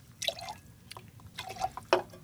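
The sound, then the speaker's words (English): Soda water is added on top of a gin and tonic made with tonic syrup, heard as a faint, irregular series of small liquid splashes and drips with a few brighter plinks. “and then we're just going to add our soda water on top.”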